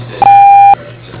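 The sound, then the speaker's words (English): A voicemail beep before a message is recorded, from a Republic Wireless mobile line: a single steady mid-pitched electronic tone lasting about half a second, clean and alone against faint background hiss. “The Republic Wireless member you have called is not available. Please leave a message after the beep.”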